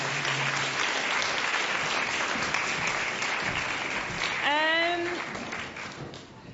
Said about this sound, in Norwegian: Men neste sesjon, da skal vi ta en applaus for alle fire.